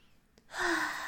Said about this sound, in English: Look, I'm even doing it just the way you told me. I'm taking a nice deep breath.